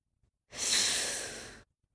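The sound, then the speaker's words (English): One long, drawn breath lasting just over a second. It is a smooth, airy rush that swells quickly, then eases steadily before cutting off, with near silence on either side. “He took a dramatically long breath.”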